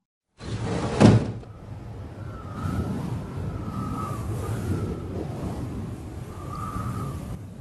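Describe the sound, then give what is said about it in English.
A window swings open with a single solid clunk, followed by a steady rush of wind noise and faint wavering tones from outside, with no voices. “Will you open the window?”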